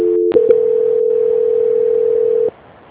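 A telephone tone plays while a call is being transferred: after a brief click, a single steady mid-pitched tone holds for about two seconds, then cuts off, leaving faint hiss.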